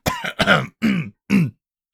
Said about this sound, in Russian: Пивовар откашлялся, огляделся.